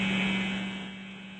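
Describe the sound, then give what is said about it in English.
Clothes dryer buzzer signalling that the laundry is done: a steady, low droning buzz with bright overtones. It is fairly faint, tapers slightly toward the end and has no talk over it. “Yeah, it started the dryer. Is that what that is? Yes, it is. More buzzing, my God.”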